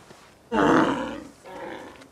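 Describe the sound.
A wisent, or European bison, gives two deep, rough grunting roars close together, the first loud and drawn out, the second shorter and softer, with no other sound around them.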